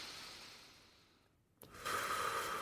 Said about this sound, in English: So, let's close our eyes, take a deep breath in through the nose.